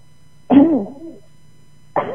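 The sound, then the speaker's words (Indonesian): A person coughs, with one strong, throaty burst trailing off, then a second cough starting near the end, loud against an otherwise quiet background. “Aduh aduh batuk no ini kayaknya.”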